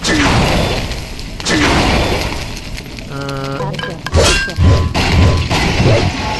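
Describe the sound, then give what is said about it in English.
Walls being smashed down in a video game attack produce a few heavy crashing thuds with clinking debris, preceded by a brief tonal game effect and set among busy in-game noise. “Alright, so now I'm gonna walk up to this wall. I'm gonna do my best to destroy them.”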